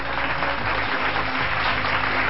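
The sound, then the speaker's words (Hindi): A studio audience applauds to welcome a guest on a talk show: steady, dense clapping with no voices over it that holds at an even, loud level throughout. “जोरदार तालियों के साथ इनका स्वागत कीजिए।”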